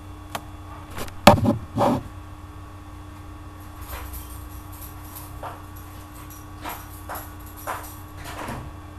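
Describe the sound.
A door being opened after a knock: a few sharp clicks and clatters of the latch and door early on, then faint scattered knocks and rustles over a low steady hum.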